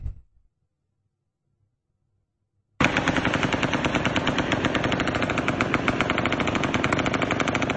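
Rapid gunfire from a rifle: after a brief thump and a long silence, a dense, loud stream of shots breaks out abruptly and rattles on steadily to the end.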